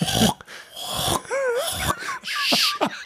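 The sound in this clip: Eerie wavering wails from a running dishwasher, several looping, sliding tones rising and falling over breathy, hissing bursts, moderately loud with brief gaps.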